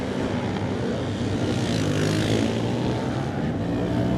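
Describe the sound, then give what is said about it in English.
Racing engine of a Ducati Mark III motorcycle at a road race, a loud, continuous, dense drone that holds steady throughout with no clear breaks. “Jeffrey Vermeulen on his Ducati Mark III. He's the next runner to go is Jeff.”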